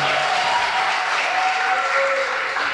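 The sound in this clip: Crowd applause and cheering for a DJ, a dense wash of clapping with brief whistles riding over it, loud and unbroken throughout.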